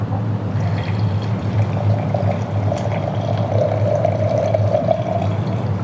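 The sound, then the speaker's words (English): Wine poured into a glass on an outdoor deck: a steady, continuous splashing pour with a faint ringing tone running through it, with no talk. “Here I'm going with the pour.”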